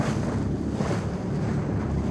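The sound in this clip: A boat travelling upriver gives a steady, unbroken low rumble mixed with water wash and buffeting wind noise, loud and even throughout.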